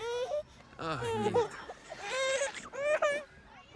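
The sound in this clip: A baby girl cries and whimpers in several rising and falling wailing bursts with short pauses between them, fairly faint overall.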